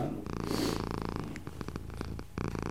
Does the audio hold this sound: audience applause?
no